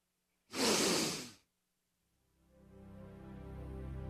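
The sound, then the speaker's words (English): A single deep breath drawn in and let out, loud and airy for about a second, followed by silence before a low steady tone slowly swells in. “Let's take the time, the 20 seconds. Just take the deep breath in.”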